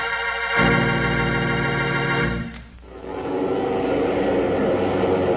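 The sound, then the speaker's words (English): Piston propeller engines of a United Airlines DC-7 airliner running before takeoff: a loud, continuous droning hum rich in harmonics, dipping briefly midway before swelling into a rougher, broader roar. “Hear that? That's a United Airlines DC-7 mainliner ready for takeoff.”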